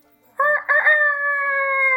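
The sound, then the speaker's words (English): A rooster crows over a video call, starting with a short, choppy burst and then stretching into one long, loud, sustained high note that carries to the end, with no talk over it. “he was very patient with our language barrier around roosters. What is that?”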